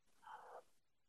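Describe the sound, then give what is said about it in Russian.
A sharp inhale through an open mouth during a breathing exercise, one brief, faint airy gasp of about half a second, heard alone. “А теперь приоткройте рот и сделайте вдох через рот. Много воздуха наберете?”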